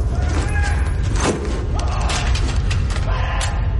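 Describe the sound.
Gun magazines are loaded with steady metallic clicking and creaking, heard without pause over a dense, noisy background.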